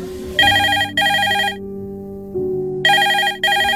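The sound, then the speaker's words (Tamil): A mobile phone ringtone signals an incoming call with bright, pulsing electronic tones. The tones come in bursts separated by a short gap, over softer sustained notes, with no talk. “கால் பண்றாங்க, நான் பேசிட்டு வரேன்”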